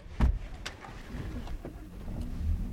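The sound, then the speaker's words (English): Pickup truck driving up through snowy ranch rangeland, heard from inside: a low, steady engine rumble with a few sharp knocks and rattles over it. “As we drive up into the rangelands of Sun Ranch, James Stewart's voice traces the land formations as he points through the windshield and drifting snow.”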